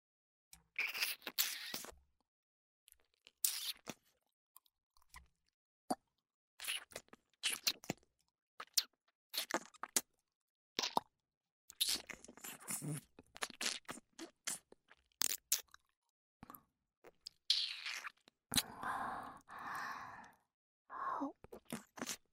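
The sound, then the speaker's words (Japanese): Wet ASMR ear-licking mouth sounds come as many short, intermittent smacking and slurping bursts separated by silent gaps. They are soft and irregular, with no speech. “では耳なめの方を開始させていただきます。”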